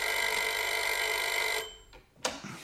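A telephone bell rings in a steady, bright, continuous trill for about a second and a half, then cuts off, and a single sharp click follows shortly after.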